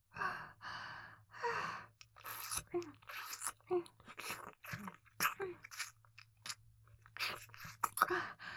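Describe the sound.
Wet mouth sounds of someone pretending to eat around a listener's ears: many soft, crunchy munches, smacks and bites scattered among quiet, breathy sighs and gasps, all at low volume.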